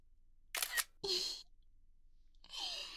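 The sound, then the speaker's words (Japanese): A camera shutter takes photos with a few sharp mechanical snaps separated by short quiet gaps. “はい、撮るよ。もう一回。”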